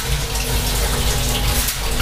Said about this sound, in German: Dann spiele ich mal kurz, falls ich hier drin geklettert haben soll. Spüle ich das mal kurz aus.